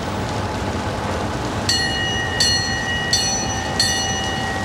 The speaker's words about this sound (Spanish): El tren arranca